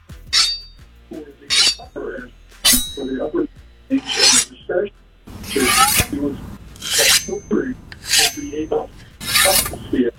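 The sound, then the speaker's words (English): A knife being sharpened, heard as many harsh, bright rasping strokes that come in short bursts, sparse at first and then closer together in a fairly regular rhythm. “It sounds like sharpening a knife. That's exactly that's what it is.”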